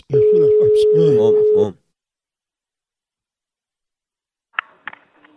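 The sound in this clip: A steady telephone ringing tone on an outgoing call hums for about a second and a half beneath a voice that is talking, then gives way to silence and a few faint clicks near the end.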